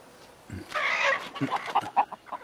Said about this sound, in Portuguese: Galinhas.